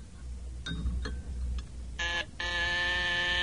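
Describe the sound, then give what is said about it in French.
A doorbell rings at a front door with a short bright tone, a brief pause, then a longer sustained ring. A few faint clicks come before it. “Ah, on sonne. On sonne à la porte.”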